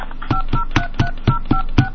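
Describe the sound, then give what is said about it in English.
Telephone keypad dialing tones play as a quick, evenly spaced run of short beeps, about four per second, that are steady and fairly loud with no voices. “Please enter 1 plus the area code plus the phone number you wish to dial.”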